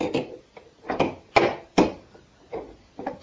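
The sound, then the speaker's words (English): Sharp wooden knocks from a hammer banging pegs into holes, a series of separate thuds spaced unevenly with short pauses between them, some strikes louder and crisper than others. “Put it in and then take the hammer and bang it.”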